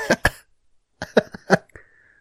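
Several people coughing on request: a pair of short, sharp coughs, a pause, then a quicker cluster of several more coughs, loud against silence, with no talking.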